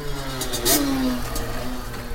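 Buzzing engine of a souped-up moped in the Netherlands, briefly swelling louder before its droning pitch drops and levels off.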